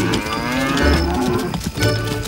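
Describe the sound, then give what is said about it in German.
Cows moo in loud, low, drawn-out calls that overlap and run almost without a break, dipping briefly near the end. “Der Tag verging und Krishna kehrte mit all seinen Kühen nach Hause zurück.”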